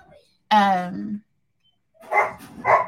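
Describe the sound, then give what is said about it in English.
Dogs barking: one drawn-out harmonic bark, then after a pause two shorter, rougher barks, all fairly loud and with no talk. “And I apologize for my dogs. There must be somebody outside.”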